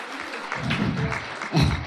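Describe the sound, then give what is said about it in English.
A short burst of audience clapping follows a talk on artificial intelligence, lasting about two seconds at a moderate level. “Can you give a round of applause for that?”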